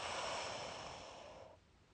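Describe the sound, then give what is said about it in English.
A long, deep breath out during a calming self-love tapping exercise: a steady, breathy rush of air lasts over a second, then fades into near silence. “Deep breath in. And out.”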